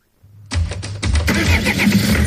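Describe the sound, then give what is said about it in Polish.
A diesel car engine starting: several short, rough cranking bursts, then the engine catches into a steady, loud clattering rumble that keeps running to the end. “Czy rozpoznają Państwo ten dźwięk? To silnik diesla, popularny w Europie, ale nielubiany przez Amerykanów. Jest głośny i wydziela dużo spalin.”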